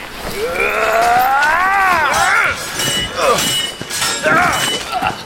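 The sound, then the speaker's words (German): Steel blades clash in a sword fight over icy land, bright metallic ringing that wavers and glides in pitch, broken by a few sharper strikes. “Wieder erklang der scharfe Klang von Stahl über dem eisigen Land.”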